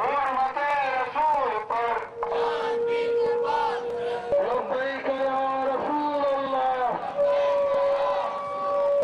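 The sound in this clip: A protest rally crowd near Parliament House at China Chowk chants religious slogans against the publication of blasphemous cartoons, the massed voices rising in sustained, rhythmic calls and holding long tones, loud throughout.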